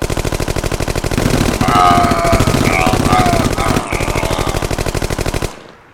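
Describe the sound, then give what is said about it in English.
Automatic gunfire from a SWAT team: loud, rapid bursts in a continuous mechanical rattle lasting several seconds, with a voice briefly crying out during the shooting, then cutting off abruptly near the end. “the Cityopolis SWAT team have gotten into position, and now that Night-Night and Bubo have inadvertently drawn Wanker out into the open, the SWAT team make their move. Fire at will!”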